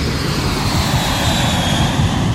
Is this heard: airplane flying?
yes